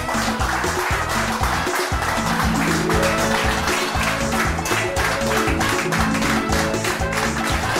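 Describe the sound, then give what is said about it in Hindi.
People clapping in a restaurant, a sustained, many-handed applause with voices mixed in beneath the rhythmic patter. “अरे ये सब लोग ताली क्यों बजा रहे हैं?”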